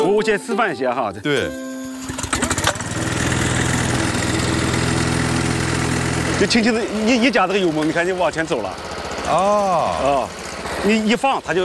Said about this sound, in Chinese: 这除草机是吧？我先示范一下哈。对。 就轻轻的一夹这个油门，你赶紧往前走了。